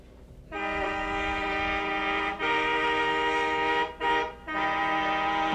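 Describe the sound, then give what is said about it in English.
A Canadian train whistle sounds a loud, steady, chord-like tone in three blasts. The first two run almost together, and a brief gap comes before the last. “You see, now this one now is the Canada train whistle.”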